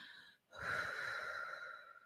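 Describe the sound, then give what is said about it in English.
A deep breath is taken after a short pause: one long, steady airy draw lasting about a second and a half, moderately loud and with no talk over it. “Okay, I'm gonna take a deep breath.”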